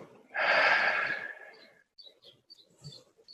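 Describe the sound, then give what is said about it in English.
A deep breath let out during a guided breathing exercise: one long, loud, breathy exhale lasting over a second, then a few faint, scattered small sounds. “Breathe out. Breathe in one more time. And let it go.”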